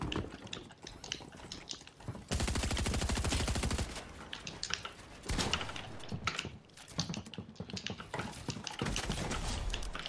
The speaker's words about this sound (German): Digga, als ob er in dem Moment aufmacht, wo ich mit der Pump schießen will.